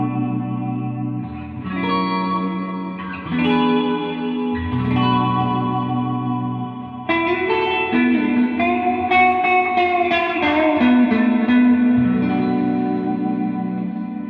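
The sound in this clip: An electric guitar played through an effects pedal set to its church reverb: a few chords ring out alone, each washed in long, lush reverb so that the changes blur into one another.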